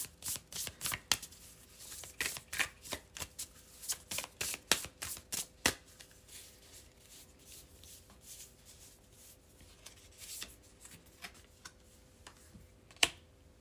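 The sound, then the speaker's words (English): Oracle cards from the Pure Magic deck are handled and shuffled, giving many quick, quiet taps and riffling flicks in irregular bursts, busier at first and sparser later. “All right, I'm going to pick an oracle card here from this Pure Magic deck by Andres N. Garcia.”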